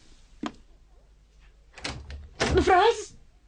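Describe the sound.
A room door closes suddenly with one sharp thud near the start, followed by a short stretch of quiet and then a voice sounding out.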